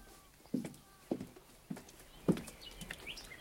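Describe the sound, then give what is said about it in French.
Horses' hooves clop softly four times at a slow, even pace as a horse dealer shows horses for choosing. The hits are faint against a quiet background. “Il te présente des chevaux et tu vas en choisir un qui te plaît.”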